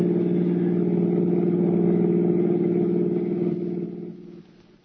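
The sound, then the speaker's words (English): A car being driven, its engine giving a steady low harmonic drone that holds evenly for several seconds and then fades away over the final second, with no voices. “Mr. Julius Siegel, drove toward the George Washington toll bridge, across the Hudson River in Siegel's car, with the third criminal, Bud Aldridge, following in their own car”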